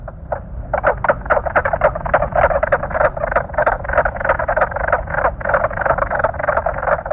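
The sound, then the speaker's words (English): Mink frog calling in a rapid, steady run of sharp, knocking croaks. Many evenly spaced pulses repeat loudly on their own, with no voices. “Mink frog.”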